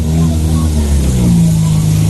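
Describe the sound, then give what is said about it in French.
Rally car number 70 arrives with a loud, steady engine drone that holds throughout. “Voiture 70 qui arrive à présent à mes côtés.”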